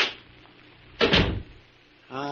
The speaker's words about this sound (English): Come inside and close the door.